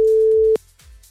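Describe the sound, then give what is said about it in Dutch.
A telephone line tone sounds while someone is being called: a single steady, clear electronic beep holds for about half a second, then gives way to faint low noise with no voices. “Ik ga even iemand anders bellen, kijken of dat ook wel lukt.”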